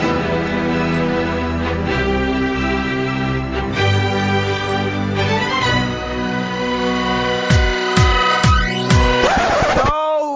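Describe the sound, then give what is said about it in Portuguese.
Short musical intro jingle for a comics-themed show: sustained tonal chords and melody, ending in a few sharp percussive hits and a swirling sweep, with no talk over it. “Então, isto posto, roda a vinheta do podcast, o Bichas Nerds está no ar.”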